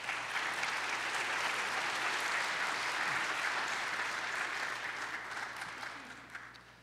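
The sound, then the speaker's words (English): An audience at a Christian academy event applauds in steady, dense clapping that holds for about six seconds and then slowly tapers off. “Let's give them a hand real quick.”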